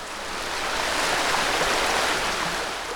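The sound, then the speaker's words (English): River water gushing and trickling along the banks of the River Rye in North Yorkshire, England, a steady, even hiss of flowing water that swells slightly and holds without a break, with no voices. “you join us by the banks of the River Rye in North Yorkshire in Northern England. And that gushing, babbling and trickling, that endless flow you hear,”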